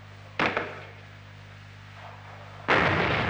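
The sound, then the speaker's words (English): An M40A1 106 mm recoilless rifle firing: two loud, sharp blasts, the second broader and more sustained, over a steady low hum. “M40A1 106 millimeter recoilless rifle.”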